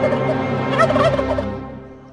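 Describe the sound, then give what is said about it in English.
A beady-eyed bird gives a loud, rattling, gobbling call that runs continuously for about two seconds and fades out at the end. “that is the challenge issued by the beady-eyed bird”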